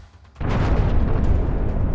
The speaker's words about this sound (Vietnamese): Một tiếng nổ bùng dậy, chỉ thấy bầy ông bị thổi bay đi hết.